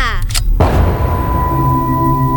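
A single gunshot from a handgun found in a father's drawer: one loud, sharp blast that breaks in abruptly and leaves a decaying ring behind it.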